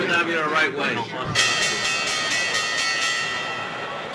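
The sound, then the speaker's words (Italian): A stock exchange opening bell rings continuously from about a third of the way in, holding one steady metallic tone over a busy background with voices. “visto che l'ha fatta suonare anche Monti, facciamola suonare anche noi questa campanella e commentiamo la borsa”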